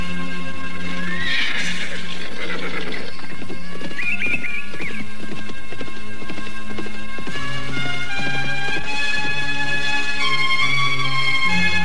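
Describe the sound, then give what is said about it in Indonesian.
Two riders spur their horses through a city gate. Galloping hooves clip-clop in a loud, continuous rhythm, with two shrill whinnies in the first few seconds and no voices. “keduanya memacu kuda mereka memasuki gerbang kota Raja Galuh”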